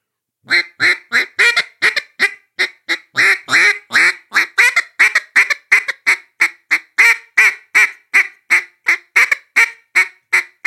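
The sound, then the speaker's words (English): A person blowing a duck call imitates a mallard hen's bouncing hen call: a long rhythmic string of many loud, nasal quacks, evenly paced with brief gaps between them. “so there's a couple different variations of that bouncing hen. I'll do a couple of them that I know.”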